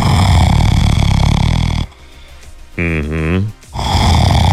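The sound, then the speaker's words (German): Loud snoring: two long, rough rasping snores separated by a quieter gap that holds a brief buzzing, droning tone. “Solange es nur so klingt, ist alles gut. Aber viele Leute, die ratzen nicht nur wie ein Schaufelradbagger im Tagebau”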